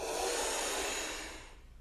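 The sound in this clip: Breath drawn in through a small tube during a kriya breathing exercise, a strong, airy rushing hiss that holds for over a second and then fades out.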